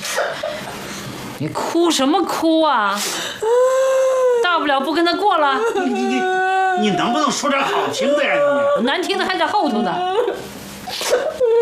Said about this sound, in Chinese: 你哭什么哭啊？大不了不跟他过了。